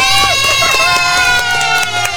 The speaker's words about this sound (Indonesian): Nih, juara satunya Bayah. Tepuk tangan dong.